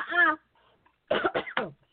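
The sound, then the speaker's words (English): Coughing from a person: one short cough, then a brief pause and a quick cluster of a few more rough bursts, fairly faint and alone. “Did you just cough? I did.”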